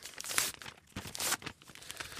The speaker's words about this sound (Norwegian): Ja, det hjelper jo mye å ta teipene.